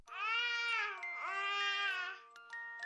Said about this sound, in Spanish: Para algunas personas, el balbuceo de un bebé no significa gran cosa, aunque eso no es necesariamente cierto. A los 6 meses ya combinan vocales y consonantes.